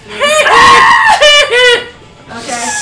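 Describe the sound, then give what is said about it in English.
A player at a tabletop role-playing game session screams in character: loud, high-pitched cries in a few strained bursts, with a shorter outburst near the end. “I just scream.”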